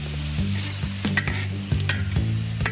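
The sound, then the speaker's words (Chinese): Stone frog with ginger slices, pickled chili and light soy sauce stir-fries in hot oil in a wok, giving a steady loud sizzle broken by many sharp stirring clicks and scrapes, with no talk. “待锅内油热后放入姜片、石蛙、泡椒、生抽进行爆炒”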